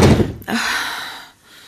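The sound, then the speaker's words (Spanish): A door being shut: one solid thunk near the start, followed by a brief hissing tail that fades out. “Cierre la puerta, por favor.”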